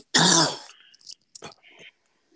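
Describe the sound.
A single loud, harsh cough bursts out, followed by a few fainter, scattered throat and breath sounds before it goes quiet.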